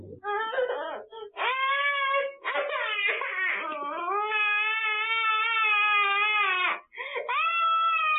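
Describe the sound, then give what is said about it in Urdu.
High, wailing cries of a young child upset over a tablet: choppy sobbing bursts at first, then a long sustained wail that breaks off briefly and resumes. “Us video میں بچہ tablet لے رہا ہے تو رو رہا ہے”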